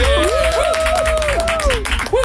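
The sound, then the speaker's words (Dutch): Warm applause from an audience, a continuous loud patter of clapping with a wavering tonal sound running over it the whole time. “Mag je een warm applaus voor niemand minder dan Jos Smeltzer, oftewel La Fuente!”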